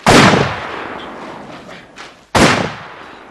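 Cannon fire and exploding shells on a battlefield with soldiers: a sharp, loud blast followed by a fading rumble, then a second sudden blast about two seconds later.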